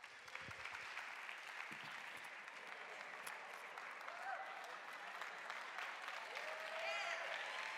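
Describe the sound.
Audience applause greets a speaker coming up to the stage: continuous, even clapping from a crowd that keeps a steady, fairly faint level for several seconds without a clear rise or fade.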